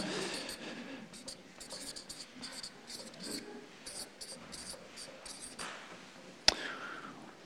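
A pen writing on paper: a long run of faint, dry scratching strokes in an uneven rhythm, followed near the end by a single sharp click.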